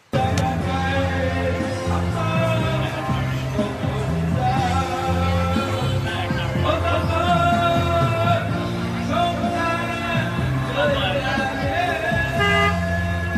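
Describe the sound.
Street noise in Vietnam is crowded with car horns honking without a break. Many overlapping toots of different pitches sound loudly over the rolling hum of traffic.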